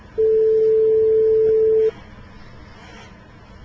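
A telephone tone sounds while a number is being called: one steady, clear, mid-pitched beep lasting under two seconds, followed by faint line hiss.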